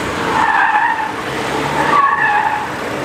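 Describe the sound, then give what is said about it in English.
A car skids through an obstacle course at a Taiwan FIA gymkhana race. Loud tire squeals rise twice over a steady roaring engine, with no talking. “Here he is at the Taiwan FIA Gymkhana race, making short work of an obstacle course.”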